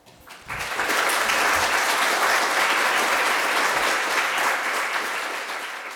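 Audience applause thanking a panel at a leadership event on cultural competence in a veterinary science faculty. The clapping swells quickly after a softer start and holds steady for several seconds, easing slightly toward the end.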